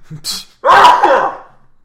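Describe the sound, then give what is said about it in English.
A human sneeze: a short sharp intake of breath followed by one loud, breathy explosive burst that fades quickly, with no other voices. “I sneezed. If you couldn't tell.”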